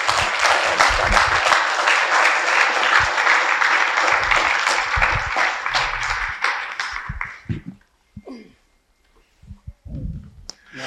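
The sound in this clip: Audience applause welcomes two professors to a conversation: sustained, dense clapping for about seven seconds, then it dies away into near silence with a few faint scattered sounds.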